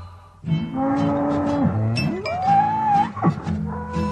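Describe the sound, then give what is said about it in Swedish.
Mooing of a cow and a calf out in the countryside by a road: a lower, drawn-out moo followed by a higher, thinner one, both loud and alone. “Ute på landet går kossan och kalven.”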